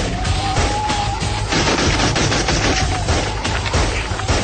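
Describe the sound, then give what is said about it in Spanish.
Sustained gunfire aimed at beetle-like creatures closing in, a loud, dense volley of rapid shots that runs without a break for the whole stretch. “sigue a su camarada disparando a los cascarudos que ya están cerca.”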